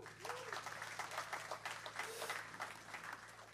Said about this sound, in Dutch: Hebben we Alvin Manuhuwa, geef een applaus.